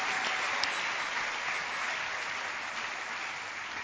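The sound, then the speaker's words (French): An audience applauds at a church gathering, a steady, dense wash of clapping hands that holds at an even, moderately loud level throughout with no talking over it. “Acclamons la parole et la présence du Seigneur. Gloire à Dieu.”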